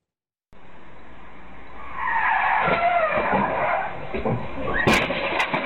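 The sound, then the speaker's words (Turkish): A car skids out of control on a street in Erzurum's Palandöken district, recorded by a security camera. A rushing engine-and-road roar swells into a loud, wavering tire squeal, then a couple of sharp cracks near the end. “Erzurum'da kontrolden çıkan bir otomobil kaldırımda yürüyen iki genç kızın üzerine doğru ilerledi.”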